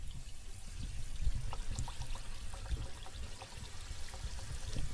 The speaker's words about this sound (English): So I'm just gonna drop in the first donut just to check that everything is going okay. And let's pop it in.